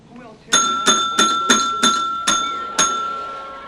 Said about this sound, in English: Scott eyes the bell.